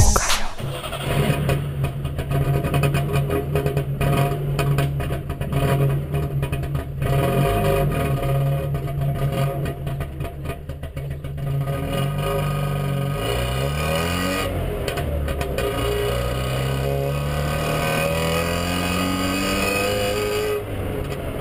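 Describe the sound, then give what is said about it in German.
Vintage East German cars, among them a Wartburg, start up and drive off, their engines idling and then revving with a steady rumble. Engine pitch climbs in the later half as the cars accelerate, with no voices. “Es wird Sommer und es fahren immer mehr Oldtimer auf der Straße rum.”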